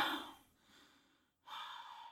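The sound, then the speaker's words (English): A voice imitating loud mouth breathing: a strong, airy breath, then a softer, drawn-out one, a brief pause, and another strong breathy rush, all close and without words. “Mine is just when people breathe with their mouth. That kills me.”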